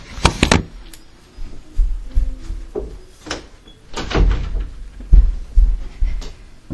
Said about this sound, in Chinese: 忘记了，我会把门关上啊